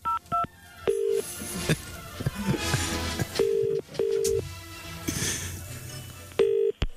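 A phone is speed-dialed with a series of short electronic touch-tone beeps at irregular intervals, including a quick pair at the start and longer single tones later, over a busy, noisy background.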